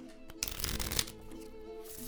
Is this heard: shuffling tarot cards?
yes

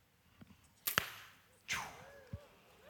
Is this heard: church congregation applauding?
no

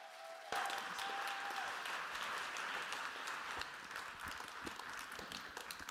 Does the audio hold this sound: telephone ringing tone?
no

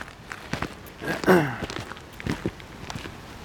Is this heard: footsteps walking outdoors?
yes

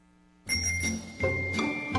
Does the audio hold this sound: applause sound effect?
no

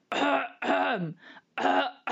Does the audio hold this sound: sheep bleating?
no

